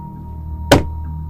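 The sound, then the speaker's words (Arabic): A single dull knock lands on a boarded-up, wood-like wall inside an apartment in a horror audio drama, a short thud over a steady low hum. “خبطة كام من حيطة كانت متقفلة زي الخشب كده في الشقة عندنا.”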